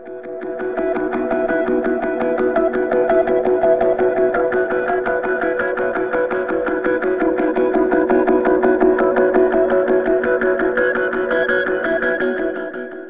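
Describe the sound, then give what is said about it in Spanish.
Reverb-drenched electronic music closing a nearly seven-minute track, the echo of its roar: a loud, unbroken, distorted drone with layered sustained tones and a fast fluttering pulse, no voices. “Un reverb final que simula el eco del estruendo que genera un tema de casi 7 minutos de duración”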